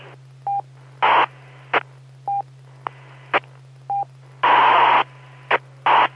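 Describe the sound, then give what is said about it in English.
A scratchy radio signal as someone keys up a transmitter: many short bursts of static and clicks alternate with brief beeping tones over a steady low hum, with one longer hissing burst near the end. “I keep hearing something. I think somebody else is trying to talk. Are you copying that too? It sounds like somebody's keying up.”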